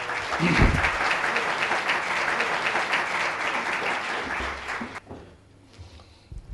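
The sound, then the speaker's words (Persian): An audience applauds a female volunteer called on stage during a live talk about marriage. The clapping is loud and sustained, stops abruptly after about five seconds, and leaves quiet behind. “برشون دست بزنید لطفا”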